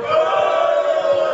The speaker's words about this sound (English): So then, if we're getting a bunch of boos here, I guess we should go to the Prem.